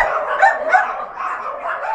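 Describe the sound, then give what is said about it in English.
Dogs bark and yip at a doggy daycare and boarding facility on the Upper West Side, a steady, overlapping chorus of barking that continues without pause. “Camp Canine, an Upper West Side doggy daycare and boarding facility.”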